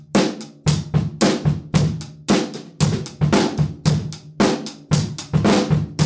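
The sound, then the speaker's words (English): A drum set playing a classic rock beat with the snare on the backbeat: a steady, loud, repeating groove of deep kick thumps and sharp, bright snare cracks at an even tempo, heard alone. “you'll hear snare drum as the backbeat in like a classic rock beat.”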